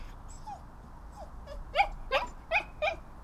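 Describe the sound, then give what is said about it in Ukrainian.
A small dachshund whimpers quietly: faint high whines at first, then a few slightly louder whimpering yelps in quick succession near the end. “Він зовсім не гавкає, але якщо уважно прислухатися, то можна почути тихеньке скавучання.”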